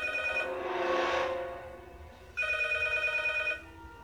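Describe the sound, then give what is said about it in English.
A telephone ringing with two electronic multi-tone rings separated by a short gap. Each ring is a steady, buzzy tone, and both are fairly quiet. “Then why the fuck is the phone ringing?”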